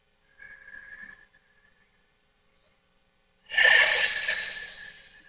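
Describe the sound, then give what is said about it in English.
Deep breathing during a relaxation exercise: a soft, brief breath, then after a pause a longer, much louder airy breath that gradually fades. “So as you get yourself into the space of comfort, just begin by taking a few deep breaths.”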